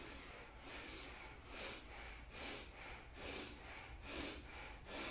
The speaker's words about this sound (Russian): так, начинаем дышать бхастрики через эти трубки.